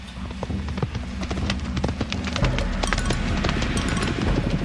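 Rapid galloping hoofbeats of a horse being ridden in a charge toward an enemy in battle, with many quick, sharp thuds over a steady low rumble.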